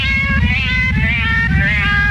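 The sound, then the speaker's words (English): A cat's drawn-out meow, wavering and held at a high pitch for the whole stretch, over a loud, dense low backing that never drops out. “The universal search for the cat with the galactic meow.”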